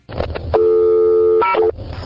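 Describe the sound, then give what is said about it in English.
Electronic payphone coin tones, each standing for a quarter: a loud, steady multi-pitch tone held for nearly a second, then a brief higher tone before it stops. “When the operator asks you for 50 cents, you play two of the tones from the beginning of this program. Each tone represents a quarter.”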